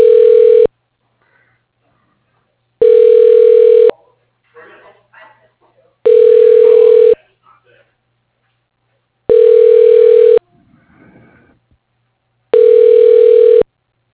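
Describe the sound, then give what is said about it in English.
Ringback tones as a phone call is transferred to voicemail: five evenly spaced, loud, steady electronic tones, each about a second long and roughly three seconds apart, with faint muffled voices in the gaps. “I'm going to put you through to his voicemail then, okay?”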